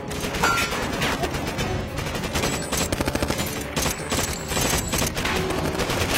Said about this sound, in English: I love how the cops just sat there and watched them. And waited for them to get out of the car and start shooting at them. Stop shooting at me.